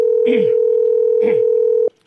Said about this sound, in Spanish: Si no, como si estuviera ocupado la llamada, ¿no? No nos está respondiendo